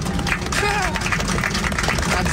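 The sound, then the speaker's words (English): A thin smattering of applause rises from airline passengers after an emotional pilot's farewell announcement. Sparse claps sit in a busy background, and a voice is heard partway through. “That's a smattering of applause.”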